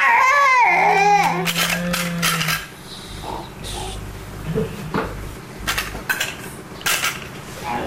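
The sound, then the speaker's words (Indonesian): A child plays with a spoon, giving several scattered metallic clinks against dishes after a brief child's cry at the start, with faint fussing between the clinks. “Gak boleh main sendok.”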